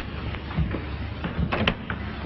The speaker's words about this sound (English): He unlocks the door.